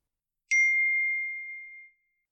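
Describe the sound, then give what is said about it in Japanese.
A LINE messaging app notification chime rings once, a clean, bright electronic tone that holds steady and then fades smoothly over about a second and a half, alone against silence. “その夜、花助はショコラちゃんに LINE をしました。”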